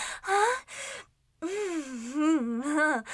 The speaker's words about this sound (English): That was quite the little breath hitch.